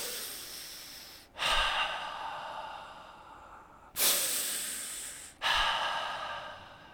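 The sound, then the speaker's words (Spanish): Deep, slow breathing to calm down: a series of long, airy breaths, each beginning with a sudden surge of hiss and then gradually fading, with no talking. “A ver, vamos a respirar amigos.”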